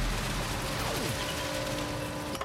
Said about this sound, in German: Jetzt wird das Ganze noch ein wenig geschüttelt, damit eingeschlossene Luft entweicht.